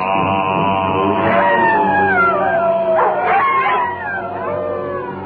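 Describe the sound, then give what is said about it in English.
Wolf howling at night, several drawn-out howls overlapping as long, wavering harmonic tones that glide in pitch, loud and sustained throughout before easing slightly near the end. “While the wolf in nightly prowl, bays the moon with hideous howl.”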